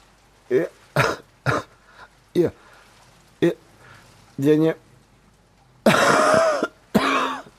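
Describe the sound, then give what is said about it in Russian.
Coughing that turns into hoarse wheezing and choking: a run of short, sharp coughs with gaps between, then longer, rough, strained bursts of rasping breath near the end. “Кашель перешел в хрип, сиплое удушение.”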